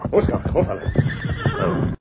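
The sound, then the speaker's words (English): A saddle horse neighs in a loud, shaky whinny with some hoof shuffling. A man's voice speaks over it, calming the animal. “Whoa there, boy. Whoa. Whoa, Silver. Whoa, steady, big fella.”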